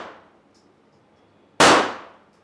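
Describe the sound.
A Glock pistol is fired at a shooting club in Rzeszów: one sharp, loud crack with a ringing decay, preceded by the fading tail of an earlier shot.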